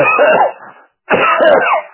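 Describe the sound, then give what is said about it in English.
Two loud, drawn-out coughs, each lasting about half a second, separated by a brief silence. “I just, a virtual cough on you.”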